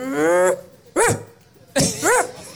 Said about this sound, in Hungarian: még nem hallottuk az ugatást, várjál, tartsd oda! Nem iszni! Ezt adjon! Nagyon jó! Kicsit morog rá